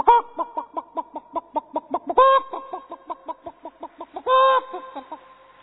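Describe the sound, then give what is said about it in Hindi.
A hen clucks in alarm at the sight of a cat: a quick, regular run of many short, mid-pitched clucks, broken twice by longer, louder drawn-out squawks. “बिल्ली को देख के मुर्गी, हाँ बिल्ली को देख के मुर्गी कैसे करती है,”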